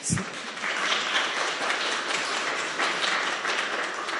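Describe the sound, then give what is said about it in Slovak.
Applause fills a church after young singers finish Sunday cantatas, a dense, steady patter of many clapping hands that holds at an even level from start to finish. “zaslúžia si aj potlesk”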